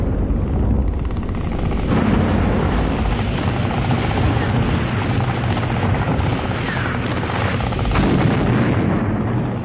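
A dense, continuous roar of low-flying B-26 bombers over the coast under anti-aircraft fire from 88 mm guns, 37 mm guns and .50-calibre weapons on D-Day: a loud, unbroken rumble with heavy blasts mixed in.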